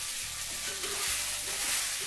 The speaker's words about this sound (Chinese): 这会儿螃蟹就可以准备下油锅，跟葱姜蒜一起爆炒。